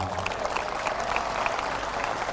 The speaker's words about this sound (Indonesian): Jangan tepuk tangan dulu